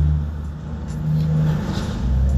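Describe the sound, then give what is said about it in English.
Road traffic with a car engine revving: a steady, low, throaty rumble that swells gently and then rises again toward the end, with no voices. “It's a lot of traffic in this area.”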